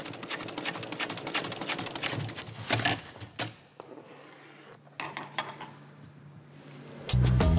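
Sewing machine stitching leather seams in a vehicle interior upholstery workshop: rapid runs of sharp mechanical ticking, then sparser clacks and a low motor hum, ending in a louder burst.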